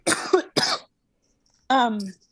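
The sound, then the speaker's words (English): Two short, harsh coughs from a person choking on water come in quick succession, then a brief strained vocal sound after a pause. “Oh, sorry. I'm like choking, like dying on water”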